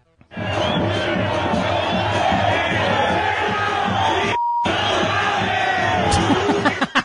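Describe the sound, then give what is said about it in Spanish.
A stadium crowd loudly chants insults at footballer Carlos Vela during a match of his Los Angeles team against a Mexican side, a sustained, rhythmic mass of yelling voices, briefly cut by a short beep and silence midway before the chanting resumes. “Le mentaron la madre a Carlitos Vela, que la verdad, pues, él qué culpa tiene.”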